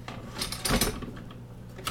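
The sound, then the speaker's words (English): A plastic K-Cup maker piece is pushed back into a K-Cup coffee machine, with light mechanical rattles and clicks and one firmer clunk near the middle. “That will allow you to just remove the piece of the K-Cup maker and allows the refillable to fit into the K-Cup machine. So I'm going to put this back in.”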